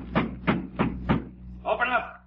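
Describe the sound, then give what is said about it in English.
Four loud, evenly spaced knocks on a door, sharp thuds in a steady rhythm, followed by a short burst of voice. “All right, all right. You don't need to knock the door down. I'm coming as fast as I can.”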